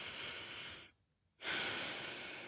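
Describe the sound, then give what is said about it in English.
A deep breath taken during a relaxation exercise, heard as two long, airy, breathy rushes split by a brief near-silent pause, fairly soft and with no talk. “relax. Take a deep breath.”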